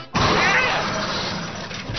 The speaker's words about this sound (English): Hey, you just crashed through my roof.